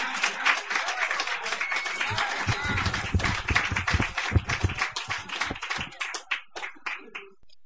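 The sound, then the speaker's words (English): Audience applause for a performer at a poetry reading: dense clapping from many hands that gradually thins into scattered, separate claps before dying out. “Give him a hand. Keep it going.”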